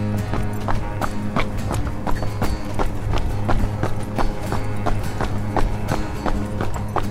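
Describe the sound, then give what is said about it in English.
Footsteps of two people jogging: a steady, even rhythm of many soft thudding footfalls over a constant low hum. “You want to do the running? Yeah, let's just run. To the box? To the box. Jog or run? No, jog. Jog. Ready?”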